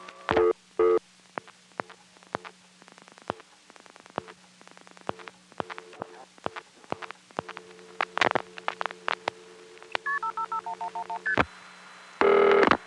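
Touch-tone dialing of an eleven-digit long-distance number: a series of short dual-tone beeps separated by sharp clicks, then a stepped, descending run of tones and a loud final burst.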